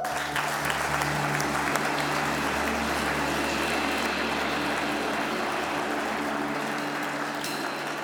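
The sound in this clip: Audience applause welcoming a speaker to the stage: dense, steady clapping that holds at an even loudness throughout, with its low rumble thinning out near the end.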